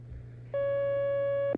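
A single telephone line tone as a phone-in call connects: one steady, mid-pitched beep lasting about a second over a low, constant hum, with no voices.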